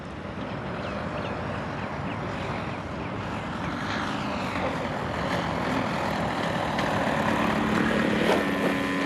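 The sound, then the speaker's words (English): A quarter-scale remote-controlled model airplane flies with a steady, loud, buzzing propeller-engine drone that holds without a break and swells slightly toward the end. “I wasn't in the driver's seat, but I was the pilot. I was flying a quarter-scale remote-controlled model airplane.”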